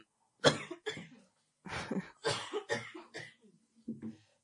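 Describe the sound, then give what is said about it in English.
Harsh coughing from a man with a cold comes in a short series of separate bursts split by brief pauses, moderately loud, with some throat clearing. “really sorry about my cough. I hope you guys do bear with it.”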